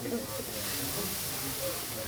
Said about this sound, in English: Second, put the beans on the pan, which is heated by burning charcoal from an acacia tree.